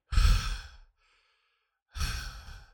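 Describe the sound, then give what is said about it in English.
A man's voice imitates the heavy, deep breathing of a sleeping heavyset man, making two long, breathy, sighing breaths separated by a pause of about a second. “some us heavy boys, we got a deep breathing, and so he's just like”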